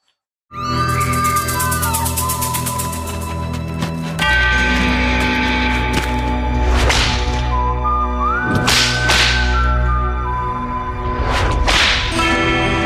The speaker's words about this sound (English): an ad in which he showed basically a mock-up of shooting at Speaker Pelosi, President Biden, and Mark Kelly. Wife was literally shot by an assailant. Let's play a little of that ad.